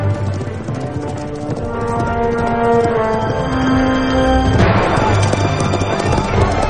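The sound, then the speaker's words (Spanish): Hoofbeats of horses galloping toward a burning mine, a rapid clip-clop running beneath sustained orchestral tones that swell and brighten partway through. “Al poco, Walter y dos hombres cabalgan en dirección al pozo.”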